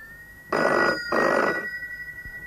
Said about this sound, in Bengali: Phone এসে গেছে এত তাড়াতাড়ি।